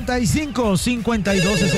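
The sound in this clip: A telephone rings for a radio phone-in call, with a warbling electronic ring pattern repeating in quick, even pulses at steady loudness.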